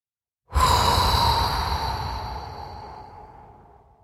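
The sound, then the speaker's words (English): A long, audible sighing exhale from a group during a guided breathing exercise. It begins abruptly and loudly, then fades slowly over about three and a half seconds, with no talking. “And together, let's exhale with a nice audible sigh.”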